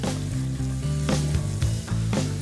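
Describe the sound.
Chicken pieces fry in a pan with ghee, cumin, ginger and turmeric, making a loud, continuous sizzle broken by a few brief bursts of stirring.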